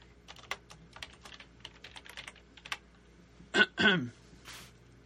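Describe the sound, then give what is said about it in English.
A password being typed on a computer keyboard: many quick, light key clicks in an uneven rhythm, followed by two short, louder bursts near the end. “I'm going to type in I can't show you that. Hang on. Can't show you my password.”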